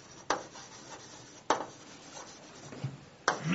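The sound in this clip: Handwriting on a surface: faint, scratchy strokes with several sharper tapping accents spread across a few seconds, with no talking.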